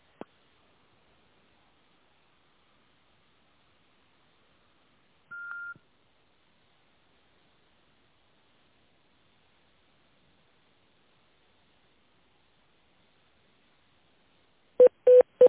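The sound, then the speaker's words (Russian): A telephone keypad tone dials an extension number in an automated phone menu, a single short beep amid near silence, with a faint click at the start and brief bursts of sound at the end. “Пожалуйста, наберите внутренний номер абонента или дождитесь ответа оператора.”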